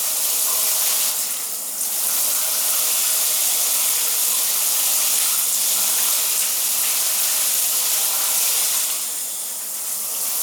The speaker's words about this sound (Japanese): 頭の耳側をゆすぎますね。